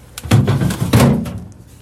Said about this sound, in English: His final stop is the fridge. He's looking for some craft beers a coworker gave him in March.